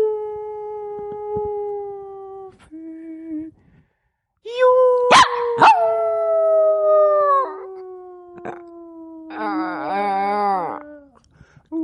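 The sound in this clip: A small young dog gives grunting howls: a few drawn-out, wavering tones whose pitch slowly falls, broken by short grunts and a brief pause, loud and clear with no talk over them.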